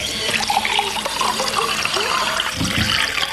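Water pours steadily into a glass in a continuous splashing, gurgling flow that lasts throughout without pause.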